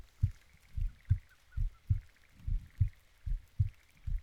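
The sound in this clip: Heartbeat heard through the chest, a steady series of soft, deep thumps falling in double beats, alone and with nothing else beside it.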